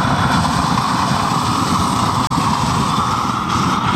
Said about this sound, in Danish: Jeg tænker lige, at vi starter med at få skruet op for den der kæmpe store basse af en ukrudtsbrænder.